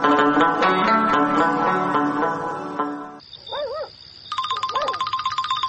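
A telephone ringtone plays a tonal electronic melody, then gives way to a high warbling tone and a loud, rapidly pulsing electronic ring, with no voices.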